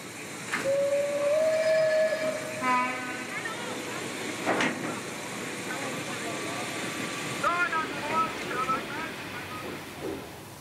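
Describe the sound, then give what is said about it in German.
Steam locomotives uncouple from a train during a locomotive change in Chomutov. A drawn-out whistle tone and several shorter whistle blasts sound over a steady steam hiss while a voice talks throughout. “Hier werden die Loks 434 und 423 den Zug verlassen.”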